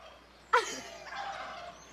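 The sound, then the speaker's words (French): A turkey gobbles once in the countryside, a single short, sharp burst followed by a softer, rough trailing rattle, heard alone with no talk. “Tu veux que je te fasse le cri du dindon?”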